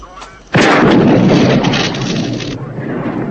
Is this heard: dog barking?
no